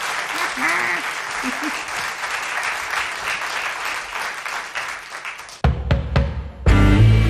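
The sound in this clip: Audience applause, a dense, steady wash of many hands clapping for about five seconds before it cuts abruptly to other louder sounds.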